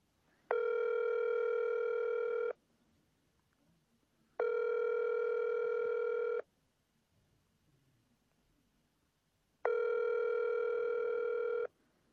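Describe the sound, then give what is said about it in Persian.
Ringback tone of an outgoing telephone call: three steady, buzzy tones of about two seconds each, separated by silent gaps of similar length, with no voices. “میخوایم به پدر جانم به تماس شم و میشه شما هم بشنوین که با پدر جانم تماس میگیرم”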